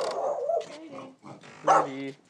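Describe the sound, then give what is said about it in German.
A nuisance dog barks a few times in loud, uneven bursts, the strongest near the end. “Ja, das ist der nervige Hund.”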